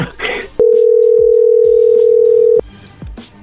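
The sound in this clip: A single ringback tone on an outgoing phone call to a private number: one steady, clear pitched tone lasting about two seconds, with people talking before and after it.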